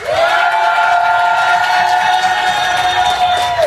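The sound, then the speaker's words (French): A live audience cheers loudly in an amphitheatre in Annecy, a dense and steady wall of shouting and screaming with sustained high tones that holds at full volume throughout. “on est en fait en direct de l'amphithéâtre d'Annecy avec un public chaud. Est-ce que je peux avoir un maximum de bruit?”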